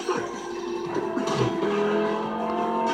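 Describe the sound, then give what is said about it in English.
A car accelerating hard in a movie scene, its engine roaring with a sustained droning tone that holds steady, loud throughout. “And then he hits the gas.”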